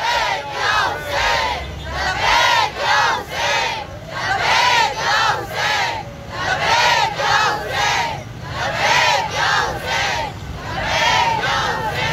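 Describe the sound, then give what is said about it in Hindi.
A crowd at a sit-in protest chants a religious slogan in response to a leader: loud massed voices repeat the same short shouted phrase many times in a steady, rhythmic pulse. “मैं नारा लगवाऊंगा, नारे का जवाब देना है, लब्बैक या हुसैन।”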